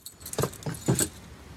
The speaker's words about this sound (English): She bends down and pulls a set of keys out from under a plant pot.